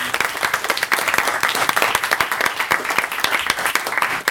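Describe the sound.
An audience at a schools debating competition applauds to welcome the judges. Many distinct hand claps stand out within a lively, continuous round of applause that holds steady throughout.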